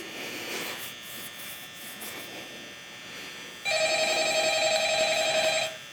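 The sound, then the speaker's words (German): A telephone rings in a night-shift horror video game, a single steady electronic trill lasting about two seconds, rising out of a faint humming background. “Wir fangen an mit Nacht 1. Wir werden wieder mal angerufen.”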